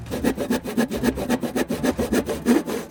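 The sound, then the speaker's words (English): A handsaw cuts through wood in steady back-and-forth strokes, many loud, rasping passes in an even, brisk rhythm with no voices. “Clamp! Clamp! Handsaw! Handsaw!”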